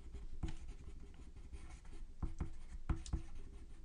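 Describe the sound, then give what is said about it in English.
A pen scratches quickly across paper as someone scribbles notes by hand. The soft, faint scrawling ends in a few sharper taps. “So if you hear me scribbling, it's because I just got an idea. Yep, I'm scribbling”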